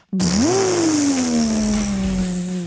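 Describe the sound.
A person imitates a car engine with their voice: a loud, sustained buzzing hum that rises quickly at the start, then slowly sinks in pitch and holds steady for over two seconds.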